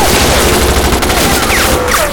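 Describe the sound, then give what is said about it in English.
Rapid gunfire from a 9mm machine pistol during a tunnel shootout: a dense, loud, continuous burst of overlapping shots with no pauses and no voices. “The woman fell first, but the other two fake seals remained standing and shot back.”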